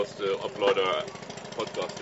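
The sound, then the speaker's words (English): The low, chugging drone of a fishing boat's long-shaft engine passing near Cabedelo, Brazil, sits under a person talking. The motor stays fairly steady and mostly below the voice. “What you hear is one of the fishing boats coming past. They use these long shaft engines,”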